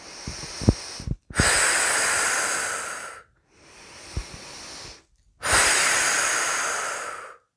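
Slow breaths out during a guided relaxation exercise with fingertip pressure points: three long, airy hissing exhalations of a few seconds each, separated by short pauses, the middle one softer, with no talk.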